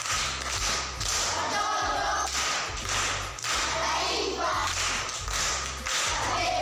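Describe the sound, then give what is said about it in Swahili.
Primary school children clap for a classmate, a dense, steady round of hand claps with a rhythmic beat that stays loud for the whole stretch. “Makofi kwa mjomba.”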